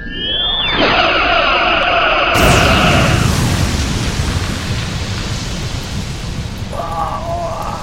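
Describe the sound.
Sci-fi starship weapons fire and explosions during a battle with a cube-shaped vessel, including torpedo launches and incoming fire. Whining tonal zaps give way to a loud blast and a sustained roaring rumble, with more tonal zaps near the end.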